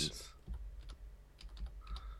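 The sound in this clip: Typing on a computer keyboard during a web search gives a few faint, irregular key clicks. They are quiet and scattered across about two seconds.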